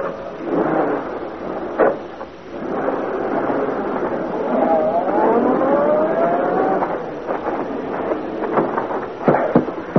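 The engine of the Black Beauty, a car in a drama, rumbles continuously. Its whine rises in pitch midway, and a few sharp clunks are heard near the end.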